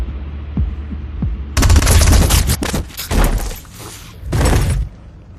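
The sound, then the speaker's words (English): Automatic gunfire erupts after a few low thuds, with loud, rapid bursts in clusters over several seconds, a brief lull in the middle, then a final volley. “Wait for her to shoot you.”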